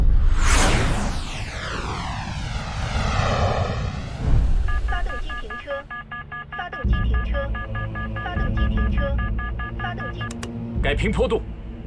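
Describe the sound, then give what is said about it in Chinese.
A turbojet trainer aircraft on a high-altitude test flight roars past, its whooshing pitch falling over about four seconds, then rapid electronic beeping tones and talking voices follow. “三五，这次试飞要实验涡喷的高空性能，你是前舱驾驶，更要冷静。”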